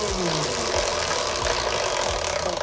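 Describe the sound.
A prize wheel given a big spin, producing a steady, loud whirring rattle that holds evenly from start to finish, with no voices over it.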